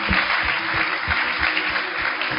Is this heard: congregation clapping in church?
yes